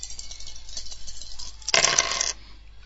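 Dice rattle as a sound effect in a computer dice game played with cursor keys and scoring categories, one short, bright burst of clattering after faint ticking.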